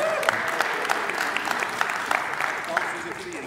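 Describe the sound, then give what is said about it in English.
Congregation applauding in church, a steady, moderately loud patter of many hands clapping throughout, with voices mixed in. “You people who are applauding.”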